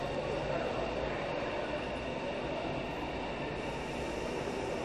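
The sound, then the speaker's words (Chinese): A train standing at a platform of Xiong'an station during a roughly ten-minute stop before heading south, giving a steady, broad rumble and hiss that holds at an even level throughout. “然后这辆列车呢是在雄安站的石站台停靠10分钟左右的时间，大概到8:52，这辆列车就会向南驶入下一个站点。”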